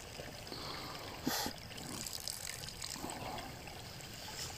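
Water emptied out onto stones gives a faint trickle and splash over a low, steady wash, with one brief louder splash near the start.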